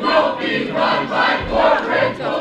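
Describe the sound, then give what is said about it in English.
Angry protest crowd shouting during a commission vote on public schools, a loud, continuous mass of many voices that swells and dips in uneven waves. “As the commission's members cast their votes, the angry crowd tried to drown them out.”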